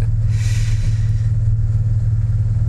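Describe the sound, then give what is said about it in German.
Steady low engine rumble of a taxi driving slowly, a continuous deep drone that holds an even level throughout with no talk. “Ich fahre langsam, ja? Im Fluss wollen wir nicht gerade landen mit dem Taxi, was?”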